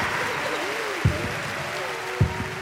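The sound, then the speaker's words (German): Applause for the winner of a game: steady, even clapping with a voice rising and falling over it and two dull low thumps. “Jubel für den Sieger. Applaus! Applaus!”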